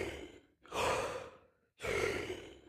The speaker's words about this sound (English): When you breathe, it's like huge breaths, like